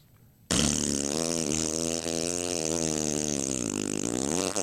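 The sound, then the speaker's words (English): A voice imitates a long fart with a loud, continuous, buzzy raspberry that lasts about four seconds, its pitch wavering slightly throughout, heard alone. “a great big fart, but it goes on for much longer than you think it would go on for”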